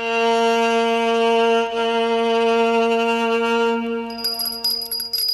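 A doorbell rings as it is pulled at the front door of a home: a steady, bright metallic tone holds loudly for about four seconds, then gives way to scattered, irregular clattering toward the end.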